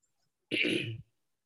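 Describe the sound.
One short, harsh cough bursts out on its own as something goes down the wrong pipe, lasting about half a second.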